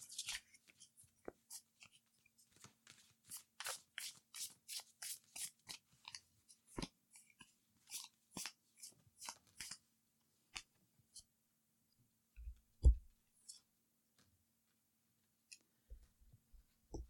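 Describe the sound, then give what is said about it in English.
Tarot cards being shuffled and drawn from a deck: many short, crisp snaps and rustles in irregular bursts, then sparser taps and a few soft low thumps toward the end. “I accidentally pulled three cards”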